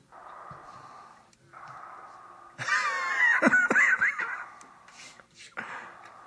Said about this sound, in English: I know you're there, I can hear you breathing.